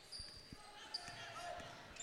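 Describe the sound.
A basketball is dribbled on the court during a women's game, with a few soft low thuds in quick succession under steady crowd murmur and brief high sneaker squeaks.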